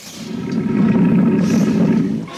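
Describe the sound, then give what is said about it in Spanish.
A restless tiger gives one long, deep, rumbling roar that swells in loudness, holds, and then fades near the end, heard alone without voices. “El tigre ruge nervioso, inquieto, presintiendo que muy pronto tendrá alimento.”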